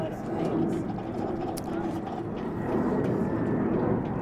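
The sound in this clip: A low, steady rumble of an airplane flying over near an airport, holding at a constant level while people talk over it.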